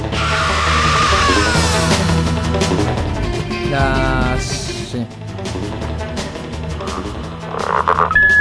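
A frog croaking in many rapid, rasping calls, set within a loud, dense mix of other sound that runs throughout.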